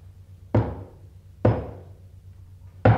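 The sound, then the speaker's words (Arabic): Three loud, heavy knocks on a gate, each a single booming thud that fades quickly, with short pauses between them. “وفجأة سمعوا طرقا على البوابة.”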